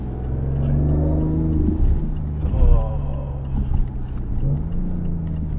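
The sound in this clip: A car engine revs with a low, steady droning note. The car is a three-cylinder model whose engine sound is artificially generated, and people talk over the engine throughout.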